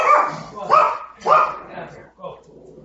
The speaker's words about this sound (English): Gotta let my dog out here.